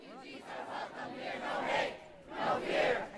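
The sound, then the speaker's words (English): A protest crowd chants a refugee-support slogan in unison, its loud voices rising and falling in rhythmic, repeated phrases. “If that was my favorite chant, then this one is the most moving.”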